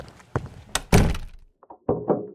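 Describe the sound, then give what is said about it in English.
A heavy hospital door slams shut with a few booming thuds, followed by several shorter clunks and rattles as the lock is set, moderately loud with no voices. “The decision has been made. This door will be locked.”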